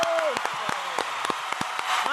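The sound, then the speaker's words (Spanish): Studio audience applause for a guest on a Spanish-language television talk show: a steady, dense wash of clapping runs throughout, with a few sharper claps standing out and a voice briefly heard over it. “¡Aplausos! ¡Aplausos ya de veras, la verdad, eh!”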